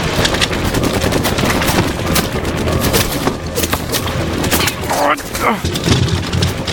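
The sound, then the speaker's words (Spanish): Rapid gunfire from a building, many sharp shots crackling in dense, overlapping bursts throughout, with shouting voices mixed in. “¿Viste de dónde disparan? Desde el edificio, del frente.”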